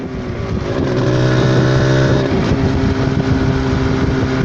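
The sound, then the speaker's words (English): Steady engine drone of a car on a 60-kilometre drive from Choro District Council out to banana farms in Malawi, a loud, continuous hum with a constant low pitch and no talk. “We take a 60-kilometer drive from Choro District Council to where the farmers are growing their crops.”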